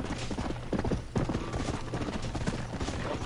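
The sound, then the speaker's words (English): Horse hooves clip-clop in a video game, a steady, rapid patter of hoof strikes that runs without a break through the whole stretch at an even, fairly loud level. “the A button is you're kicking the spurs. It's a little harder to steer the horse than it is a car.”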